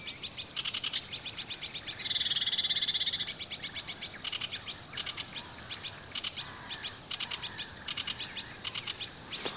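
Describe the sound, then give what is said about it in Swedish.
Black-headed gulls calling from behind a screen of bushes in wet shrubland, a dense stream of rapid, high, repeated calls pulsing almost rhythmically throughout, with no talk. “Så hör vi skrattmåsarna bakom den här buskridån.”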